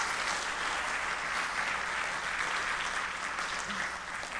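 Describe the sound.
A church audience applauds to welcome a man up to the stage on Easter Sunday morning. The clapping is even and continuous throughout, fairly faint and without talk over it.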